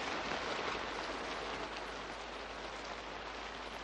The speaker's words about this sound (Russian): Идет сильный дождь.